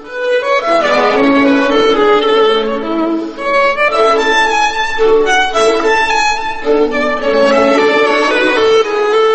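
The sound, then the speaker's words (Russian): Music by Wolfgang Amadeus Mozart: a bright, flowing line of clear notes with rich overtones, loud and even throughout apart from a brief dip partway, with no voices. “А вот как звучит его сын, Вольфганг Амадей.”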